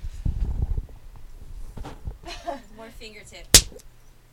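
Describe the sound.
A single sharp spank lands on the body near the end, a loud slap after a stretch of excited voices.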